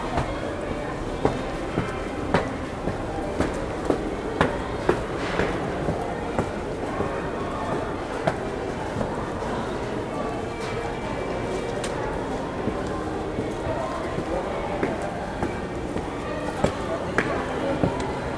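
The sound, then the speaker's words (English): Footsteps climbing stairs, a steady run of light thuds about one per second, while a person keeps talking over them. “The stairs, which are here. And we're gonna climb these stairs.”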